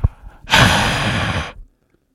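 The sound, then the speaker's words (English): A person exhales one long breath, a single breathy, airy sigh lasting about a second, loud and close, preceded by a brief soft inhale and followed by silence. “That's me exhaling carbon dioxide.”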